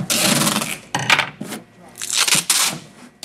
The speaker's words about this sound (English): As library workers here tape up moving boxes full of books, similar rituals are underway around the country